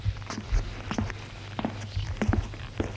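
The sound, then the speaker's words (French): Quiet footsteps going down a set of stairs: many soft, light thuds and scuffs in an uneven rhythm, faint against a low background hum. “Ils descendent des escaliers en évitant de faire du bruit.”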